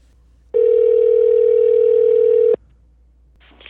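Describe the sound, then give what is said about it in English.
A telephone dial tone sounds while a call is placed to a guest: one loud, steady mid-pitched tone lasting about two seconds, then an abrupt cut-off and a brief fainter burst near the end. “So let's dial him up.”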